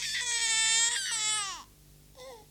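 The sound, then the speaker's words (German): A baby boy cries loudly in a long, high, strained wail that drops away at the end, followed after a short pause by a brief, fainter whimper. “Und das Baby, das Sie soeben brüllen gehört haben, hört sich heute so an.”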